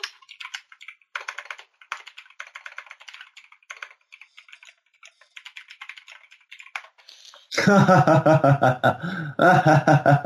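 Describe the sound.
Rapid typing on a computer keyboard, a busy run of light clicks and clatters in uneven bursts for several seconds, then a louder voice takes over.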